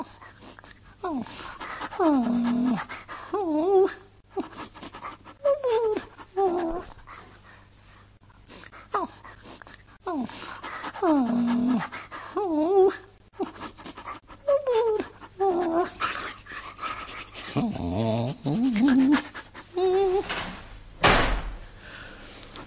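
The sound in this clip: An injured dog whimpers and whines outside a neighbour's door past midnight, unable to stand on a bad leg. Many high, wavering whimpers come in bursts with short gaps, and a sharp door sound follows near the end.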